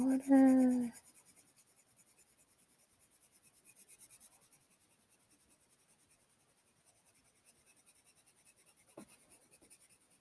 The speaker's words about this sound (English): I don't know what the heck I'm drawing.